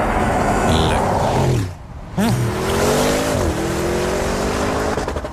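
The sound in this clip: An SUV engine revs loudly, drops out briefly partway through, then surges back with rising pitch before settling into a steady drone that dips once more.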